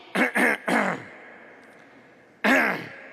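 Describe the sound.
Throat clearing from a person with something stuck in their throat: three harsh, rasping bursts in quick succession, a pause, then one more loud clearing.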